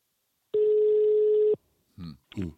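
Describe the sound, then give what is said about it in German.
A telephone call ringing out: one steady, even ring tone of about a second, then a pause before a voice answers with two short words. “Willst du mal anrufen vielleicht? Ich würde sagen, wir rufen ihn mal an. Anrufen.”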